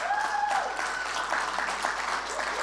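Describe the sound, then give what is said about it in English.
A church audience applauds with quick, dense clapping at a moderate level, while a voice is heard over it at the start before the clapping carries on alone. “Can we give it up for Lifehouse in your house?”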